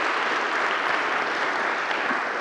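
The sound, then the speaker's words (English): A church audience applauding to welcome a new member, a dense, even patter of many hands clapping at a steady level from start to finish. “So if you will, as you're doing now, welcome Kara Johnson. She's our new sister in Christ. So Kara, you can stand up and just, we'll clap again at the end of the video.”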